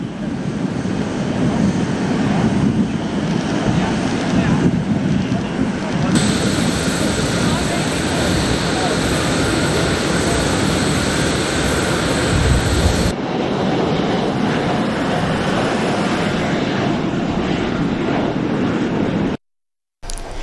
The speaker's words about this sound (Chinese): 离开开罗时，埃及总统塞西夫妇到机场送行。